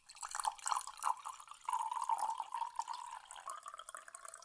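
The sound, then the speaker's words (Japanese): Hot water is poured from a kettle into a separate tea bowl while making powdered tea. It is a steady, moderately faint trickling pour with a wavering, ringing liquid tone and light bubbling that runs continuously throughout. “お次はお湯を別の茶碗に注ぎます。”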